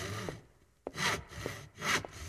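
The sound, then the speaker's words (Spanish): Handsaw cutting through a piece of wood at a workbench, with a few rasping back-and-forth strokes that swell and fade in a rough rhythm, heard alone without voices. “El hombre tomó un madero y lo cortó con el serrucho mordaz.”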